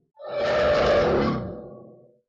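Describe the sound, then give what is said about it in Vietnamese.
A mysterious beast gives a single discontented roar, a rough, growling blast that swells quickly, holds for about a second, then fades away. “Con quái thú thần bí phát ra một tiếng gầm bất mãn, tựa hồ vừa rồi nó rất không hài lòng về 3 thi thể quái thú đó.”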